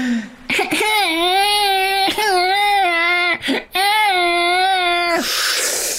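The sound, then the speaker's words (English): Colicky baby crying in three long, loud, wavering wails, each held steady in pitch and separated by short catches of breath. “She just hears a baby who's colic.”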